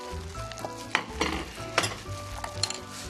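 Minced garlic going into a sizzling pan while cooking, with a steady frying hiss and several sharp scraping clatters from stirring.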